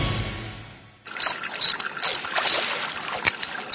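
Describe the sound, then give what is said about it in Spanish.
A father repairs a household water meter, with soft splashing and trickling water mixed with small clattering handling noises, continuous after a brief fading lead-in. “Papi, ¿qué estás haciendo? Un arreglito acá en el contador de agua, mi amor.”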